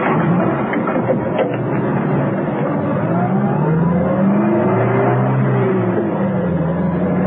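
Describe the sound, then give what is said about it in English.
A taxi driving: its engine drones steadily and loudly throughout, with the pitch wavering up and down. No one speaks. “So Steed ordered a taxi. When it came, Arcos was at the wheel.”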